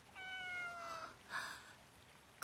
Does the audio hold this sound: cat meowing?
yes